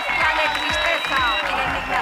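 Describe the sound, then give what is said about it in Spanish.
A crowd at a memorial tribute applauds with a loud, continuous wash of clapping, and voices call out among the hands. “Aplausos y una sola voz.”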